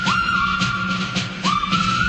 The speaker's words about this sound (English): one of the best whistling songs to ever come along was from the movie Bridge Over the River Kwai. The good old Colonel Bogey March. Very hard not to whistle along to this.